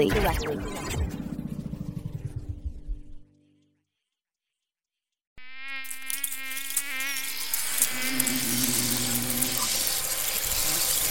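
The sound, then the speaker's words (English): Many bugs buzzing: an early burst of buzzing stops, leaving a stretch of silence, then several insects buzz together again, a continuous droning with wavering pitch that holds steady to the end. “Hear that? That's the sound of 10 quintillion bugs on this planet.”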